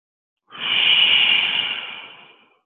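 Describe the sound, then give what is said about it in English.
A single long, deep breath drawn in through the nose, a soft airy hiss that swells quickly and then slowly fades over about two seconds, with no talk. “Take another nice deep breath into your nose. A nice deep breath in through your nose.”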